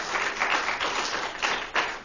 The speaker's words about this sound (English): perhaps if we could hold the applause to the end